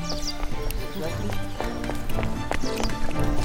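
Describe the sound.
Hurried footsteps as people run during a panicked crowd surge, a dense stream of quick thumps and shuffles under a constant din of crowd voices.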